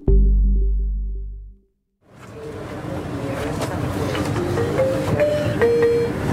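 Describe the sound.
Train travelling toward Murcia del Carmen station: a sustained tone fades into a brief silence, then a steady, loud rumble and rattle of the moving train continues.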